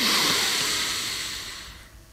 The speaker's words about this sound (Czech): Pokud se chcete na chvilku sklidnit, zpomalit si váš srdeční tep a prožít to pondělní ráno aspoň malinko v klidu, tak se teď zastavte, nadechněme se všichni společně